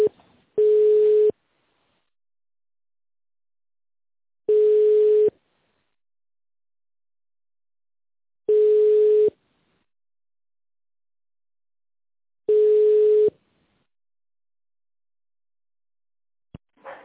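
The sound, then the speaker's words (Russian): A telephone ringback tone plays while a call is being connected, four long, steady mid-pitched beeps spaced evenly with long silences between them. “Сейчас попробую соединить вас с абонентом. Если звонок не пройдет, пожалуйста, наберите единый номер 212-309.”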